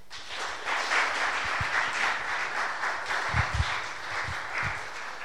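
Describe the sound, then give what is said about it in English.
Audience applause welcomes a guest speaker to a church service: steady, dense clapping holds at an even level throughout, with a few heavier low thumps scattered through the middle and late parts. “If we could please put our hands together and just welcome Mark.”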